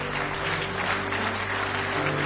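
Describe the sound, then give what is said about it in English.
Church audience giving a hand clap of praise, dense and loud applause that holds steady from start to finish with no talk over it. “Give him one more hand clap of praise.”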